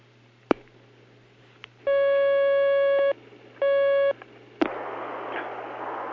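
A telephone line connects a phone-in call with a few sharp clicks, then two steady electronic tones, the first longer than the second, and a soft line hiss afterward.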